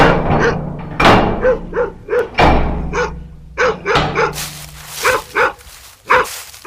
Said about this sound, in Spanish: Voy a callar a este perro.